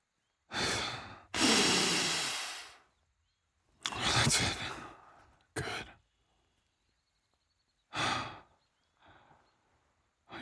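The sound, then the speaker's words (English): A person takes deep breaths, several loud, airy inhales and exhales or sighs, separated by stretches of silence. “Take a deep breath for me”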